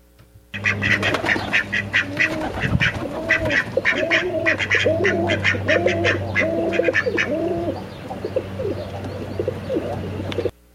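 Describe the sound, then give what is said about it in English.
Duck quacking from a video of a seeing-eye duck: a long run of many loud, nasal honking quacks in quick succession, continuing almost without pause throughout. “I'm going to put you on a slide hold. I found a video of seeing eye duck.”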